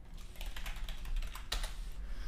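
Quiet typing on a computer keyboard while saving a file: a steady run of soft, quick key clicks with no talk over it.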